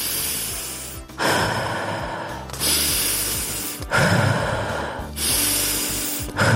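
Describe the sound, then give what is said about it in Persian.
Deep breaths drawn in and pushed out as a stress-relief breathing exercise: several long, loud, airy rushes follow one another at a steady, slow pace with brief gaps between them, and no talking. “آفرین دوباره سه تا نفس عمیق دیگه بکش و هوا رو بده بیرون”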